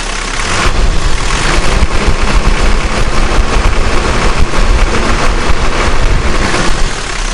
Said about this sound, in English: So maybe give it a bit of a squirt. Okay. A bit of rev.